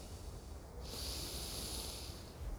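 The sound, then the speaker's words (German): A deep, deliberate breath drawn in through the nose. It comes as a steady, airy hiss of about a second and a half, faint and alone with no speech. “Atme einmal tiefen bewusst ein.”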